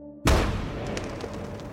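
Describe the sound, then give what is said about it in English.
A single loud gunshot from a rifle with a bolt: a sharp, sudden crack followed by a long, heavy rumbling tail that stays loud to the end, with no other shots. “Pointing the firearm away from himself, he squeezes the trigger once more.”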